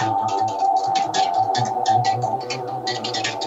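Electric guitar played with a tapping technique, rapid repeated notes in a quick, even rhythm over a sustained humming tone, loud and alone with no voices.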